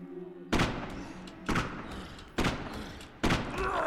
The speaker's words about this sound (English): So if I press the space bar, I'll shoot him. Oh, he's not dying, I think.